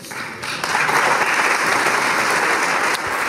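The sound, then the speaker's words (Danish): Applause in the Hungarian parliament after a vote passes: steady, dense clapping that swells sharply within the first second, stays loud and even, then eases slightly near the end. “Ja, det her det er lyd fra det ungarske parlament i dag, hvor man har stemt for at rulle anti-LGBTQ+-lovgivning tilbage.”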